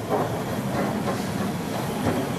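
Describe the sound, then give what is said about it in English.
Underground train running on surface track: a steady, dense rumble of rolling wheels and rail noise with a faint hiss, holding an even loudness throughout with no voices. “The underground line into Gloucester Road and after that to Aldgate. It's on the surface here, and what's more... It's stopping!”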